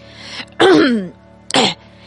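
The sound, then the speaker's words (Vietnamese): A man snorts and clears his throat in two loud, short bursts. The first is longer and rasping with a voiced edge, and the second is brief and sharp. “Ông ta uống một hơi dài từ cái bình bọc bằng sợi liễu và khịt mũi một tiếng, rồi hắng giọng.”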